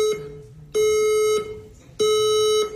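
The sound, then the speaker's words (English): A fire alarm beeps during a fashion show in a gallery, with two long, loud, high-pitched electronic tones separated by a short gap, steady and harsh, heard without any talk. “That's a fire alarm. That's not part of the show.”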